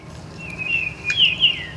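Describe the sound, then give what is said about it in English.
A Baltimore oriole sings near Boston, with a short phrase of clear, slurred whistled notes over low background rumble. “That's an oriole.”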